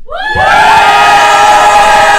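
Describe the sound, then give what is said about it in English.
Crowd cheering and shouting as an audience votes by cheer on who won a roll-off, swelling quickly from a few voices into a loud, sustained roar that holds to the end. “Okay, show of hands. We'll do a cheer. I know I'm gonna lose this. Who thinks Khan won that roll off?”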